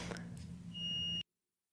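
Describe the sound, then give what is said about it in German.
A smoke detector beeping: one sustained high-pitched electronic beep in the second half, heard over a steady low hum and faint background noise. “Mein Rauchmelder piept.”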